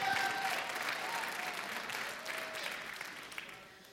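Audience applause at a live show: dense, steady clapping from many hands that gradually thins out over a few seconds.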